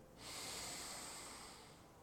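A person takes one long, deep inhale during a breathing exercise. The airy, steady rush of breath is faint, lasts well over a second, and eases off gently at the end.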